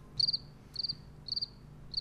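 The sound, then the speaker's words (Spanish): Crickets chirp in short, high-pitched trilled bursts, four of them at a fairly regular interval. The chirps stand out alone over a quiet background. “Todas las noches, todo el día, también los grillos estos cantan todo el día y toda la noche.”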